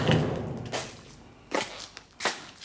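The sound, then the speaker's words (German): Knocking in a stage performance, a few separate dull knocks spaced apart with pauses between them, soft and short against a low background. “Das ist ein Klopfen.”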